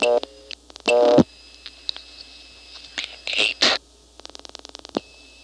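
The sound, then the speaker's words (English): A telephone number is dialed on an older exchange: a few short tone bursts and clicks, then a quick run of evenly spaced dialing clicks. “I'm getting it by dialing 2280. Strictly speaking, I should dial 8280, but from here it doesn't make any difference.”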